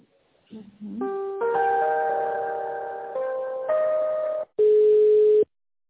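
Telephone line tones play while a business call is being transferred. A few sustained electronic tones with steady pitches change step by step, and then one steady tone ends the sequence.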